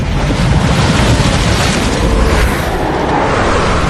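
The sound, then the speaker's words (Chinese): Blizzard wind roars among mountains beside a lake, a loud, dense, continuous howl of rushing noise that holds steady throughout, with no voices. “啊，有暴风雪！”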